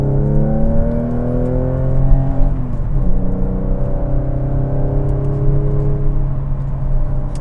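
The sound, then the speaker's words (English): Car engine revving at about 4,000 RPM in second gear while driving at roughly 57 mph with slight front-wheel slip: a loud, continuous droning note with stacked harmonics that dips briefly midway and then holds steady. “Hear that? That's 4,000. Third gear. I should be in. Oh, second. Second, please.”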